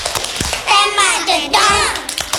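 Children perform the 'tepuk pistol' clapping chant, with loud rhythmic group chanting over quick, sharp hand claps that run through the whole stretch.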